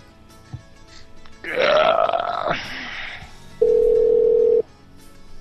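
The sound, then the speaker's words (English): Telephone line tones play while a call is put through to a motel extension. A long, loud burp-like voiced sound comes first, then a single steady, loud line tone lasting about a second before the line goes quiet. “For reservations, please hold while I try that extension.”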